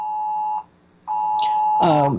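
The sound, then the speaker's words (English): Two long, steady electronic beeps, the first lasting about half a second and the second more than a second after a brief gap, with a voice starting over the end of the second. “I'm hearing some beeps going on here.”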